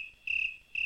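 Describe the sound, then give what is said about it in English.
Crickets chirp in a steady, high, buzzing trill that comes in two loud bursts separated by a quieter stretch, with no voices. “Well, you just heard crickets.”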